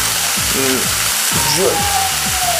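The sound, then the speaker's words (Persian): Food fries and is stirred in a pan, a constant bright sizzling hiss that stays at an even, fairly loud level throughout. “یه جوکی هم براتون بگم، هم دارم چیزم رو سرخ میکنم.”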